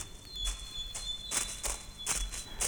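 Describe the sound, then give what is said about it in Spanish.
Footsteps crunch through dry fallen leaves in a forest: several dry, rustling steps at an unhurried walking pace, with a faint steady high tone sustained beneath them. “Un ruido de pisadas en la hojarasca lo distrajo”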